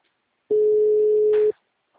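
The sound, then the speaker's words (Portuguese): Telephone busy signal on an unanswered call, a single steady mid-pitched tone lasting about one second, heard alone between silences. “Não tá atendendo. Grave seu recado agora. O número está ocupado.”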